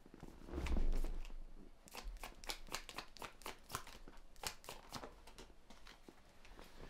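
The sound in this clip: Tarot cards are shuffled by hand, making a quiet, steady stream of many soft papery flicks and taps over several seconds, with a duller rumble near the start.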